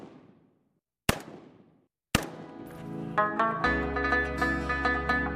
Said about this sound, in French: Les recrues vont rejoindre le stand de tir.